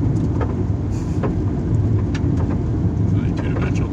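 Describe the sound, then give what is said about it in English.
A car driving on a highway gives a steady, low road rumble and engine drone that runs throughout, with people talking over it. “I'll read it as we go by. Yeah, you keep driving.”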